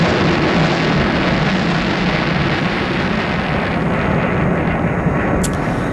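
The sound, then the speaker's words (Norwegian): Roaring rocket launch from Andøya, Norway, in 1962: a loud, dense, steady rumble that fills the whole clip without a break. “det vi lurer på i dag er hva var navnet på denne raketten som ble skutt opp i 1962 fra Andøya?”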